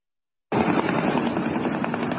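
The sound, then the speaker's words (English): Return fire from a U.S. helicopter: a loud, dense, rattling burst that starts abruptly and carries on steadily for nearly two seconds without a break. “Can you see the fire open up? And there's the helicopter return fire.”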